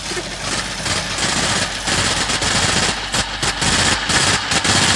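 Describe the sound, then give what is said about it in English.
A printer running, giving off a loud, rapid mechanical rattle much like machine-gun fire. It pulses in sustained bursts separated by brief gaps. “Is somebody firing at you with a machine gun? No, that's the printer going.”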